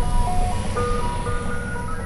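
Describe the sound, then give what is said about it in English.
An ice cream truck passes on a residential street in St. Bernard Parish, its tinkling, high electronic jingle melody playing faintly over a steady low rumble of vehicle noise. “as a passing ice cream truck went trolling for customers”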